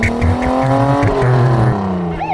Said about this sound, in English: He drove himself to the dentist's office.